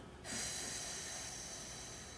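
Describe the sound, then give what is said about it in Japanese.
Slow breathing out during a relaxation exercise: a single long, steady exhale starts after a brief quiet moment, then holds an even, airy hiss that fades only slightly to the end. “ゆっくり吸っていきますはいじゃあゆっくり吐きましょう”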